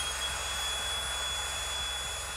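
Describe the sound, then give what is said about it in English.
An electric air pump, held up close to a microphone, inflates an air mattress with a steady, loud whirring drone and a thin high whine, unbroken throughout. “I decided to blow up my bed and I brought my air pump and I put the air pump up to the microphone.”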